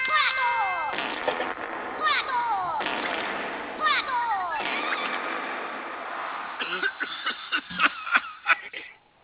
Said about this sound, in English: The 21 fart gun salute.